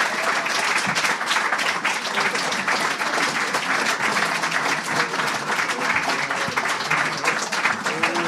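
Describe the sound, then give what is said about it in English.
An audience applauds the writers of the Conan late-night show with thick, continuous clapping that stays loud and even from start to finish. “Please give a round of applause to the Conan Writers.”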